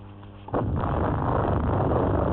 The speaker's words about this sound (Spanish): ¡Eso fue una explosión! ¡O dos!